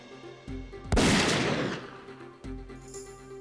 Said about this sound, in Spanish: Cada vez que el arma es disparada, Reeves mueve el micrófono unas pulgadas más lejos de la boca del cañón.